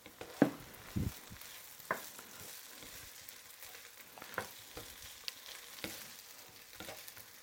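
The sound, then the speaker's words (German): Food sizzles faintly in a pan on a hot plate that has just been switched off, while it is stirred. A soft, steady crackle runs under a few sharper scraping strokes and clinks. “So, die Platte habe ich ausgemacht, der Rest brezelt vor sich hin. Ja. Rühr doch noch mal durch, bitte, bevor wir uns hinsetzen. Ich rühre noch mal durch.”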